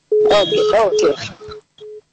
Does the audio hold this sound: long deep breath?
no